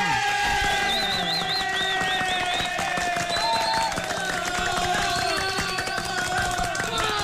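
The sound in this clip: Crowd cheering and applause: dense clapping mixed with shrill whistles and shouting voices, sustained at an even level through the whole seven seconds.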